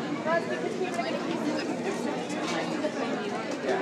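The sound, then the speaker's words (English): Live studio audience chatter fills the air: many overlapping conversations blend into a steady, even babble with no single voice standing out. “The sounds you hear are real. This is a live studio audience.”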